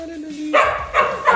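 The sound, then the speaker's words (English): Dogs bark excitedly on noticing their owner has arrived, a few sharp, loud barks in quick succession after a brief high-pitched whine. “My dogs just realized I'm here.”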